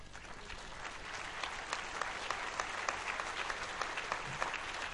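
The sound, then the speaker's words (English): An audience applauds the volunteers who ran a dunk tank, a steady rain of many hands clapping at an even level throughout, fairly quiet, with no talking over it. “please stand up and take a round of applause”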